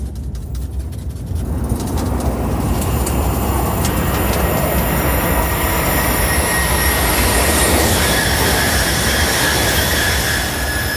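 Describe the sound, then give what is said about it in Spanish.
A train passes along a railway line. A loud, steady roar sets in after a quiet first second and holds to the end, with thin high whining tones running through the rumble. “Acaba de cruzarse todo el tren, lo escucha, ¿no?”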